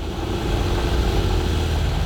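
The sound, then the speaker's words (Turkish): A car engine idles roughly and seems to choke, with a low, steady rumble and faint sputtering that runs unbroken for about two seconds, alone without voices. “Çalışıyor ama sesi daha da kötü çıkıyor. Rölanti ayarı yapmamız gerekebilir. Sanki biraz boğuluyor, öyle değil mi?”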